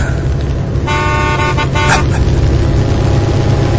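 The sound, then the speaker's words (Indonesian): A minibus car horn honks repeatedly: a few bright, steady toots over loud, continuous road and engine rumble. “terdengar suara klakson mobil. Iya, mobil minibus di belakangku itu mengklaksonku terus menerus”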